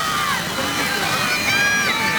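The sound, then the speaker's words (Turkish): Football fans chanting in support of their team at the club's Topuk Yaylası training facilities: a continuous mass of sung voices with sustained tones over general crowd babble, steady in loudness. “Tezahüratlarla oyuncularımıza destek oluyor taraftarlarımız geldikleri andan”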